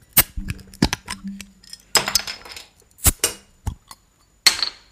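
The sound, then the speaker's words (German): A beer bottle being opened: a quick series of sharp glassy clinks and metallic clicks, uneven in rhythm, with a last brighter burst near the end and no voices. “ich öffne das Bier. Mach das mal auf jetzt hier.”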